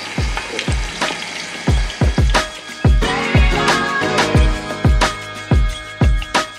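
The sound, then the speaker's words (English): Lemons coated in a beer tempura batter fry in hot oil, giving a steady crackling sizzle broken by many sharp, percussive bursts at irregular intervals throughout. “Beer batter? That's a tempura batter. Okay. Looking good. I like that you fry the lemons too.”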